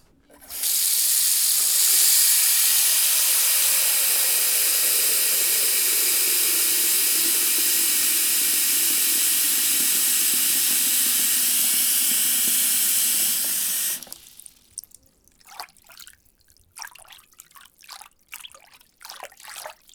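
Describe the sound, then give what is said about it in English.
Water runs into a bathroom sink with the microphone almost inside the basin, a loud, steady rushing hiss that lasts about thirteen seconds. The flow then cuts off abruptly, leaving a few faint, scattered drips and small sounds. “That obviously was a pretty close proximity thing of the microphone, basically almost in the sink.”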